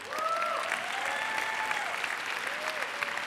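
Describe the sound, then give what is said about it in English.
A church audience applauds. The clapping is steady, dense and continuous, with a few whoops and cheering voices rising above it. “let's give those people a hand, amen”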